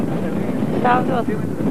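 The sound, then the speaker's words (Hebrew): A headwind blowing across the microphone as a steady, rushing low rumble that fills the whole clip, with a short voice cutting through briefly near the middle. “עכשיו הרוח נגדנו. הנה, הנה, היא באה, היא באה, היא באה.”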